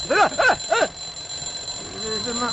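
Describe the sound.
A mobile phone alarm rings: three quick, bright warbling chirps in a row, followed by quieter, lower melodic tones.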